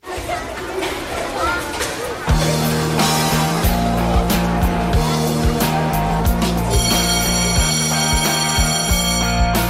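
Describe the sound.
A school bell signal for class hour, preceded by a couple of seconds of crowd chatter, then a loud, repeating ringing tone pattern that pulses steadily to the end, with voices still faintly underneath.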